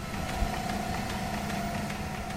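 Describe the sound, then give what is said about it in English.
A chemical feed pump runs at a water treatment plant, giving a steady mechanical hum with a constant mid-pitched tone and faint, regular ticking throughout, with no talk. “Inside the heart of Elgin's Riverside Water Treatment Plant, a chemical feed pump is hard at work.”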